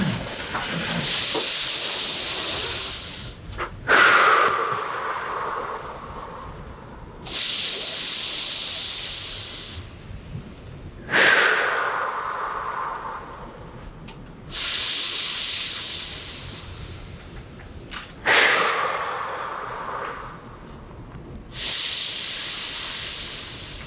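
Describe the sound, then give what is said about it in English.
Deep breathing comes as a slow, steady series of long, loud, hissing breaths, each about three seconds long, with short pauses between them. No talking is heard. “So we're gonna take six deep breaths along with me, as deep as you can go.”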